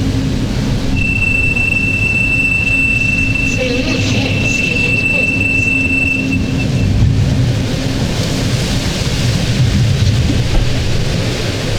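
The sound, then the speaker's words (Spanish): A metro train ride in Santiago de Chile: a loud, constant rumble of the moving car, with a thin, high whine running through the middle of the ride before fading. “Voy en metro rumbo a una reunión con un cliente”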